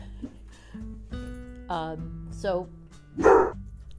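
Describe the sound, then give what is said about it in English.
A dog barks a few times, in short, sharp, tonal bursts spaced about a second apart. The barks are fairly quiet and sit under ongoing talk. “That's my dog, sorry.”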